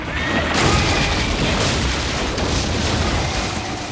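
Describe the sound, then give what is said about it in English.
Heavy crash as chariots collide, a dense, sustained roaring rumble of grinding impact noise that stays loud and even throughout without distinct separate hits. “They veered forward and the chariots collided.”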